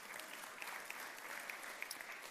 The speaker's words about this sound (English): Man, we got some golf clappers in the room.